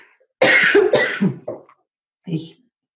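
A few rough coughs from a scratchy throat: two loud, close bursts, then smaller hacks and a short final cough after a pause.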